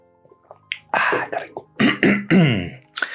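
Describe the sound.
Someone clears their throat with several quick, rough bursts and short voiced grunts in rapid succession. The bursts are fairly loud and come alone, without speech.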